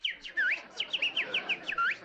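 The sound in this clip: A hypnotized woman imitates bird chirping: many quick, high, whistly chirps with bending sweeps, fairly loud and delivered in an irregular run without pauses for speech.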